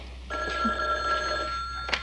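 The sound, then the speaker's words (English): Telephone ringing with a single sustained electronic bell tone that holds steady for over a second, moderately faint. “Oh, I'll get that. Why don't you get the phone?”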